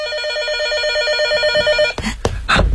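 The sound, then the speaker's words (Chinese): A telephone rings with a steady, warbling electronic tone for about two seconds, then a few short bursts of noise follow. “电话。”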